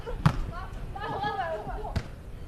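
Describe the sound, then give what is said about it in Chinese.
Two sharp thuds as a volleyball is served and struck, one early and one near the end, with a commentator talking in between. “现在是齐思雨来发球，发球比较稳健，直接发球找人”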